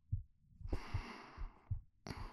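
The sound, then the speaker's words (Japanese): Faint heartbeat, a soft low thumping pulse repeating roughly every half second, with brief breathy hiss bursts between some beats and no talking. “心音聞こえる？”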